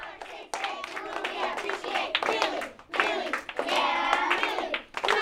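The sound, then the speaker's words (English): A class of third graders claps and shouts together to start the school day. Several loud bursts of rhythmic clapping and children's voices are separated by brief pauses. “That's the sound of third graders pumping each other up to start the day.”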